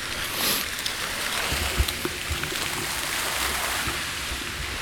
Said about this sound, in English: but it is nice to see the fountains and hear them again. You might be able to hear them right now as well.